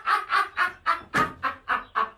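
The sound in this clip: Duck quacking: eight loud, nasal quacks in an even, rhythmic series, each a short honking burst with a brief gap before the next, with no other sound between them.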